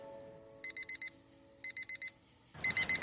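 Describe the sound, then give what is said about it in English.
An alarm clock ringing in three bursts of four rapid, high-pitched electronic beeps, the last burst louder than the first two. “The alarm clock reads 7:04.”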